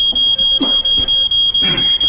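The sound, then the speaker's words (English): Smoke alarm set off by pipe smoke, a shrill high-pitched beeping that sounds almost continuously and breaks off briefly several times at an uneven rhythm, loud throughout. “Your pipe set the smoke alarm off. You've got to get up on the chair and press the button now.”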